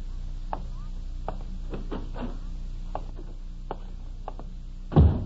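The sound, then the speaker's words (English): Heavy footsteps cross a porch as a series of dull, unevenly spaced thuds, ending in one louder thump. “Mary has put supper in the warming oven while waiting for the sound of steps on the porch. Tonight, the steps are heavier than usual.”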